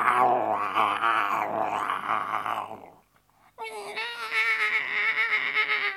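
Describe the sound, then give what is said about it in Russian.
A tiger growls loudly: a low, rasping growl held for about three seconds. After a brief gap comes a second, higher-pitched, more tonal snarling call. “тигр прыгнул из-за дерева и громко зарычал.”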